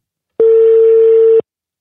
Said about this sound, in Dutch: we gaan hem in ieder geval bellen